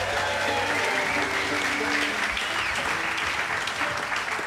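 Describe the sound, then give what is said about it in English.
Audience applause for the sound engineer at a live fiddle-and-song concert. Dense, even clapping runs steadily from start to finish, with faint crowd noise mixed in. “How about a hand for Elijah Doty on the sound, everybody?”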